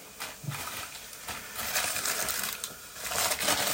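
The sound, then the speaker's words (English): Dry parsley going into a cooking pot, a crisp, papery rustling and crackling that comes in uneven bursts and swells louder toward the end. “I'm going to be looking at putting some parsley in as well, which is nice and dry. You can hear that.”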